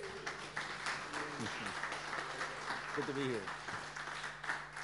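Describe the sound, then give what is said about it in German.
Soft audience applause welcomes a pastor at a church gathering. Gentle, continuous clapping runs throughout, with voices speaking over it. “Hallo, ihr kennt ihn ja alle, wollen wir nochmal begrüßen mit einem Applaus.”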